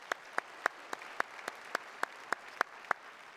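A church audience claps in unison to welcome viewers watching online: eleven sharp, evenly spaced claps in a steady quick rhythm, fairly faint against a quiet background.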